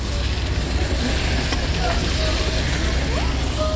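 Tofu and potatoes frying on an improvised stove. A continuous, dense sizzling hiss holds steady throughout over a low rumble.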